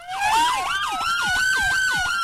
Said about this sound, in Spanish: Oiga, señoras y señores, escuchen esto. Cuando suena esta alarma,